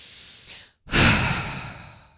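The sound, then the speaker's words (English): A deep breath drawn in: a breathy rush that starts abruptly after a short pause, swells loud at once and then tapers slowly, with softer breathing before the pause. “take a breath in with me, will you?”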